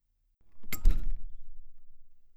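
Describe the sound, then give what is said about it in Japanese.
A room door being opened gives a single sharp latch click, followed by a low, rumbling thud that slowly fades out. No voices are heard. “あ、部屋の前に着いたよ。ドア開けるね。”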